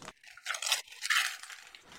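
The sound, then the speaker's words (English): Wrapping paper crinkles and tears as a Christmas gift is unwrapped, in a few short, crackly bursts of bright rustling over about two seconds. “You can, of course, now unwrap your gift. I do hope you like it.”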